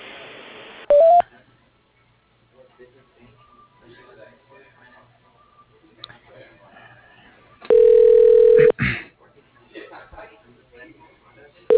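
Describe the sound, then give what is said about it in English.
Telephone keypad tones sound as a call is transferred to voicemail: a brief beep near the start, then a longer, much louder steady tone later, with quiet talk in between. “Do you want me to transfer you to his voicemail?”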